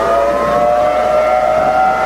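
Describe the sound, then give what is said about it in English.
A siren wails in a steady, sustained tone with layered harmonics, loud and unbroken throughout, with no voices over it. “And I got a bigger mouth than any siren anyway. I'll talk over it too.”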